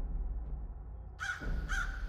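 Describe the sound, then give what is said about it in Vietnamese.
Wild crows caw as they fly about chaotically overhead: two harsh, bright caws in quick succession follow a stretch of low rumbling background. “Ở trên trời, đám quạ hoang vẫn cứ bay loạn xạ kêu lên nháo nhác”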